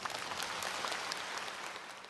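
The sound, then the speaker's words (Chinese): An audience at a formal ceremony applauds as a university system chancellor is introduced to speak, a dense, even patter of clapping that stays fairly faint and steady throughout. “请台湾教育大学系统总校长吴清基博士致辞，请大家热烈掌声。”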